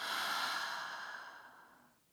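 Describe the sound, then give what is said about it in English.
A deep breath out through the mouth during a guided meditation: one soft, airy exhale that starts full and fades away over about two seconds. “Take a deep breath in through your nose and now out through your mouth.”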